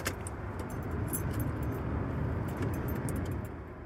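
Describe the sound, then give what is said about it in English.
Keys jangle with many light metallic clicks while a van is started after a roadside repair, over a steady, low engine rumble that holds for the whole stretch. “I'm going to start the van for the first time since pulling over.”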